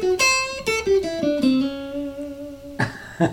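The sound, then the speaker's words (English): Short melodic lick of clear, plucked-sounding notes. A quick initial run of several notes leads into a minor pentatonic phrase with one long held note, then a few final accents. “So first I'll let you go through the lick. It sounds like this.”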